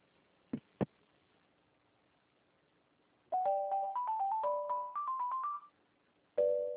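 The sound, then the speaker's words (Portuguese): An electronic phone melody plays on a call to the Rio de Janeiro Public Defender's Office: two sharp clicks, a pause, then a quick run of short bright notes stepping upward in pitch, and after a silence another tone begins. “Você ligou para a Defensoria Pública do Estado do Rio de Janeiro. Diz que o ramal desejado. Eu aguardo o atendimento.”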